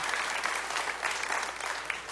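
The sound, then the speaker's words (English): A studio audience at a live Independence Day eve music show applauds, a steady, even patter of many clapping hands that fills the short stretch without a break. “Once again, give yourselves a big hand.”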